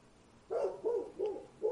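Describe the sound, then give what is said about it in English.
A dog barks during a Torah lecture, giving four short, faint barks in an uneven rhythm, each a brief mid-pitched yelp separated by short pauses. “see, Satan even sends dogs to lectures, it's no problem”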